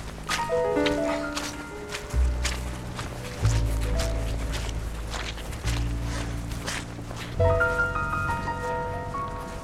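Sucking, squelching footsteps on a soggy, waterlogged sports field: a few slow, heavy steps at irregular intervals, each a soft wet thud over a steady low background.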